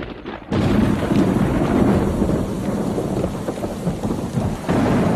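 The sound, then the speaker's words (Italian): Heavy rain and rolling thunder on a winter night, a loud, dense wash of noise that swells in abruptly after a brief quieter start and stays steady throughout. “sa una di quelle notti d'inverno, piene di lampi e tuoni?”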